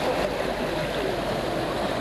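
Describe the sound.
Steady rushing and gurgling of a stream running through a village after heavy rain, now carrying little water, heard as an even, continuous flow with no voices.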